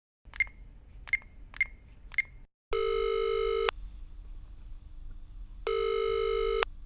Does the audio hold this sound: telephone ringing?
yes